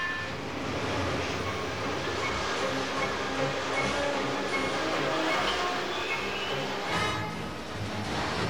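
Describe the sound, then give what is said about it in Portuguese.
A monorail train rumbling past in a Power Rangers scene: a continuous, steady mechanical roar and rattle that holds for the whole clip with no clear breaks. “Vamos logo, vamos pegar o monorail.”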